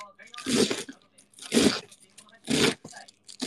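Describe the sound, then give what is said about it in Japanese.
A knife chopping cabbage finely: three crunchy, noisy cuts spaced about a second apart, with quiet talking between them. “サクサクと作っちゃいましょう。僕は結構キャベツは細かくする派です。”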